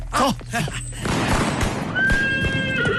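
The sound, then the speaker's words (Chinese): A horse neighs loudly at the start, on a mountain road, then a rough stretch of clattering noise follows, with human voices present. “哎呀，马到了”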